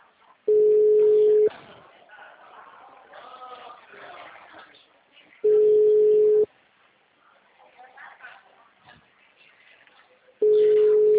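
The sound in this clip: Telephone call tones while dialing: three long, steady, mid-pitched beeps, each about a second, spaced roughly five seconds apart, with people talking in the gaps between them.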